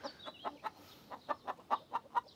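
Soft clucking of hens while they lay eggs: a faint, quick, irregular run of short clucks with brief pauses between bursts.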